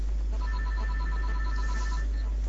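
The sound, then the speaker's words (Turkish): Telephone ringing: a rapid electronic trill pulses evenly for about two seconds over a loud, constant low hum and hiss. “ben bir telefona bakayım inşallah. Az müsaade.”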